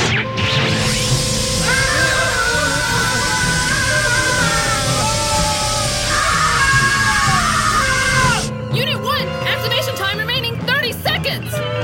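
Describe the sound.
An animated character lets out a loud, sustained scream, a high, strained, wavering voice held for about eight seconds before it gives way to busier, noisier sounds.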